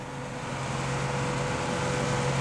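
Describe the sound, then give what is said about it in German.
A car speeds along a bad, muddy country road in Yucatán, Mexico, its engine a steady low drone with a faint hum, continuous and even throughout. “Wenn ich langsamer fahre, Professor, bleiben wir im Schlamm stecken.”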